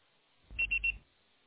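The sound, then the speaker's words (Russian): Voicemail beep tone after a recorded phone greeting: three short, high-pitched electronic beeps in a quick, even row, fairly faint over a low hum. “Пожалуйста, попробуйте перезвонить позднее, или оставьте сообщение после звукового сигнала.”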